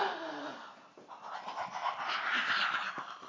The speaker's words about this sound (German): Gut, atme voll ein und aus.